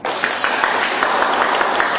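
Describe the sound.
Applause from a Buddhist audience at the end of a dharma talk: loud, dense, continuous clapping with a slight pulsing texture that fills the whole two seconds.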